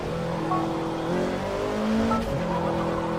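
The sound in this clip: A race car in a video game spins out with tire squeal. A steady, droning engine tone runs throughout, and a brief skidding squeal rises near the end.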